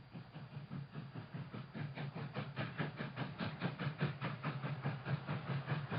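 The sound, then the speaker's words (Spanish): A train runs on rails toward London with a fast, regular clickety-clack that repeats evenly throughout, faint and with no voices. “29 de septiembre, en el tren hacia Londres.”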